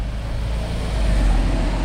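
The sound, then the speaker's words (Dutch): Street traffic in Utrecht, a steady low rumble of passing cars with engine drone that swells slightly in loudness partway through. “Even uitkijken voor het verkeer hier in Utrecht.”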